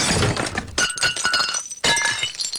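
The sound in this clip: A plate breaking: a few sharp, bright crashes of shattering ceramic with glassy clinks. Each burst rings briefly before the next, with no voices.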